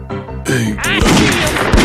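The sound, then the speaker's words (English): Gunfire in a video game: a few sharp, loud shots amid dense, noisy in-game sound, with a brief voice mixed in. “I see him. I see him. He shot me. He shot me. He got me.”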